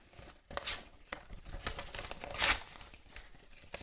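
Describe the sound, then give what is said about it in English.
Handwritten paper notes being torn up: several quick, crackling rips with crinkling between them. No voices are heard. “So I've written down all of the ideas that I have had today that I didn't do. And now I'm tearing them up.”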